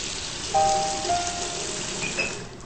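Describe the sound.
Water runs steadily from a bathroom tap while mud is washed off a hand, a soft continuous hiss with a few thin, faint whistling tones over it.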